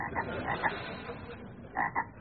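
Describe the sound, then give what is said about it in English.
A frog croaks: a few short, raspy croaks in two loose clusters, fairly faint, with a quiet low murmur between them. “What is that frog doing here? Riveting.”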